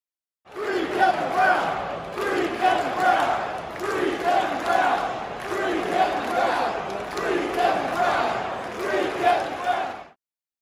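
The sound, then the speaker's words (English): Orioles fans in the stands at a baseball game chant together in loud, rhythmic unison. The repeated phrase rises and falls in regular waves for the whole stretch. “The Orioles fans in the stands that next night after all this came out very audibly were chanting "Free Kevin Brown."”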